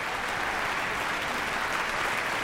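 A concert audience in the large auditorium of the Philharmonie applauds the soloists after an orchestral performance, a soft, uniform wash of many hands clapping with no breaks.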